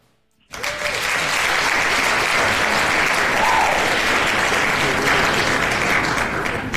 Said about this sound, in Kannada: ಖಂಡಿತ ತಮಗೆ ಚಪ್ಪಾಳೆ.